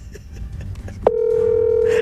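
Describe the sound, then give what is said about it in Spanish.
A telephone dial tone while a call is being placed: faint scattered background sounds lead into a steady, loud single-pitch tone that begins midway and holds unbroken to the end. “Arranco a llamar al primero.”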